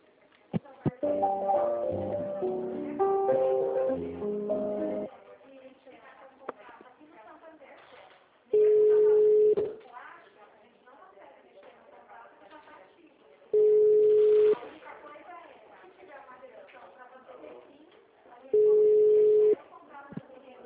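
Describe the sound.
Telephone line tones during a call transfer: a quick sequence of stepped electronic tones, then three loud, steady tone bursts of about a second each, evenly spaced and separated by quiet line noise.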